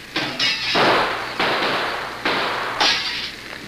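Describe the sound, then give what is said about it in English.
Gunshots in a staged shootout in an audio drama: five sharp, loud reports spread unevenly, each followed by a long, hissing, noisy decay. “The shooting seems to have stopped.”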